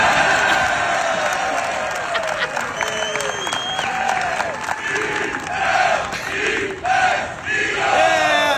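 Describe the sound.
A crowd at a golf trophy presentation cheers for the Eagles NFL team. Loud massed shouting and whooping voices surge in swells over clapping, with several sharp drops and rebounds in volume.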